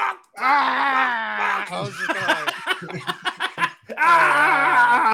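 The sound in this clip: A voice imitates a man's unconvincing fake screaming: drawn-out wailing cries, then a stretch of choppy, stuttering yelps, then another sustained wail.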